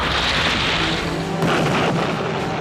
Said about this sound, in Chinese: 一旦瞄准目标就会投放炸弹，轰的一声，目标就成了碎片。